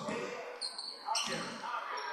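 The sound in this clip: A basketball being dribbled during a women's game, with a few quick bounces heard amid steady crowd noise and a voice.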